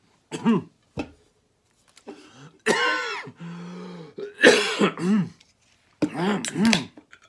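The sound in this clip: Harsh coughing and throat clearing after someone has inhaled popcorn: several loud, voiced bursts separated by short silences, with one longer rasping stretch.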